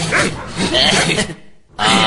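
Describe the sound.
A small dog barks and yips in quick, high-pitched bursts, loud and continuous, mixed with people talking over it, with a brief lull before the yapping resumes.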